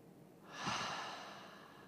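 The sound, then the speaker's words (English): A single soft breath during a guided inhale-and-exhale exercise, a gentle airy whoosh that swells and then slowly fades, quiet and alone. “Inhale and exhale.”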